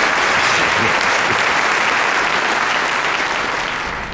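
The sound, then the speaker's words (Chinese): Audience applause at a military entertainment troupe's performance for service members: dense, sustained clapping from a large crowd, steady and loud throughout, easing slightly toward the end. “大家鼓掌，欢迎演出正式开始。”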